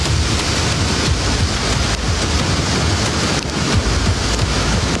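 Heavy rain pours down in a city downpour that brings flooding, a dense, steady hiss of water drumming on surfaces that holds at a constant loud level for the whole stretch, with no voices.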